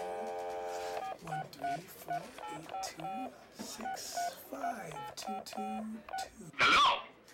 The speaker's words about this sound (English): 10-digit number here. Let me just dial this up.